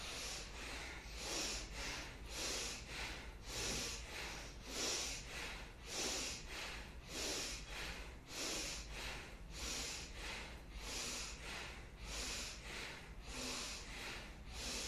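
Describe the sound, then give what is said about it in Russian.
Forceful bellows breaths of a bhastrika breathing exercise, done with hands on the ribs and the chest lifting. Many sharp, loud breathy bursts repeat in a fast, steady rhythm throughout. “Руки на ребра, дышим бахастрику с подъемом грудной клетки, руками поднимаем. Поехали.”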